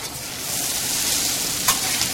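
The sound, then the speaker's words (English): Potatoes fry in a pan as they turn brown and crispy, giving a steady, fairly loud sizzling hiss with a brief crackle near the end. “Potatoes are getting nice and brown and crispy.”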